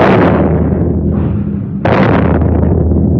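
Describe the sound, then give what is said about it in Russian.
Japanese artillery shelling a battery, as a radio drama effect from a 1954 recording: a loud rumbling blast slowly decays, then a second sharp explosion bursts in and rumbles on. “Это что такое? Поручик Борейко! Японцы начали обстрел батареи.”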